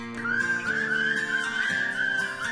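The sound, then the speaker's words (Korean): A person whistles a cheerful, bright tune, a continuous wavering melody with quick small pitch shifts, carried over soft low background tones. “휘파람 노랫소리가 더욱 경쾌합니다.”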